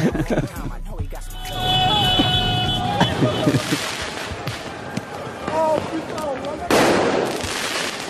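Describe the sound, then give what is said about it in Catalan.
Crackling fireworks and scattered sharp bangs ring out during a Paris street celebration after a Champions League win, over continuous crowd noise with cheering voices and whistle-like tones. “L'ambient als carrers de París era aquest.”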